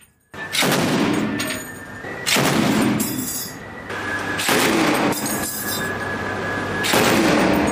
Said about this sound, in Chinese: 舱面火力组使用重机枪对可疑小艇进行警告射击。